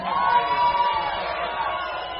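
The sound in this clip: Crowd cheering and whooping for the Shockheads after their stage set at a Heavy Rebel show, a sustained noisy roar with a long high whoop riding on top, loudest early and easing slightly toward the end.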